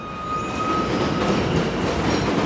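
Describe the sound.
An elevated subway train passes on a gritty Brooklyn block, a continuous loud rumble with rattling clatter of wheels on rails and a thin high whine early on.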